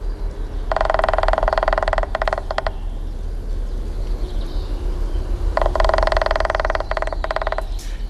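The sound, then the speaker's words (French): Male woodpecker drumming on a tree trunk in two loud, rapid rolls of dense, fast taps, each lasting about two seconds and separated by a quiet gap. “c'est bien un pivert qu'on a entendu, c'est même un mâle. Parce que s'il tape sur le tronc d'arbre pour produire le son qui a été diffusé, c'est pour marquer son territoire”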